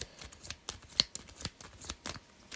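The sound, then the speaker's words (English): Playing cards being handled as one is discarded at random from a hand during a hero-themed card game: many quick, papery flicks and shuffling riffles in an uneven patter, moderately loud, with no talk. “So I'm down to 8. And then I got to pitch a card at random.”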